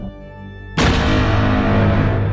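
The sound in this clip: A gunfire sound effect: one loud, abrupt blast that cuts in sharply and carries on as a heavy, sustained rumbling roar to the end.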